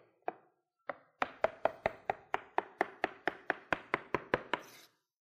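A knife slicing food on a cutting board, with about seventeen crisp, evenly spaced chops. Two slower strikes come first, then a steady, quick rhythm of sharp taps with no voices.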